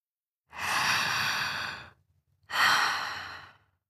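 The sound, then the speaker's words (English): Two deep breaths taken during a guided relaxation exercise, each a long airy rush lasting about a second and a half. A short pause separates them, and they are fairly loud with nothing else heard. “Just close your eyes. First, breathe deep 3 times.”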